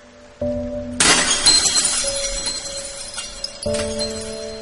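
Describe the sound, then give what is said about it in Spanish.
An empty glass bottle is thrown into a ravine and shatters with a loud, bright crash. A sustained shimmer of breaking glass follows and lasts several seconds, over a steady tonal background sound. “La botella vacía fue arrojada a la quebrada.”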